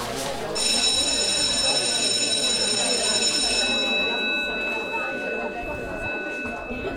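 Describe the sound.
A school bell rings with a steady, high electric tone for about three seconds before fading, over background chatter of voices.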